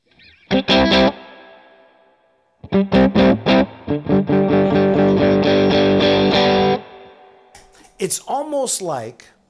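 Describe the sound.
Electric guitar played through a Coppersound Strategy preamp pedal with the tone control swept: distorted chords strike and ring, a thick chord sustains for several seconds, then a short bent phrase closes with a sweeping, shifting tone.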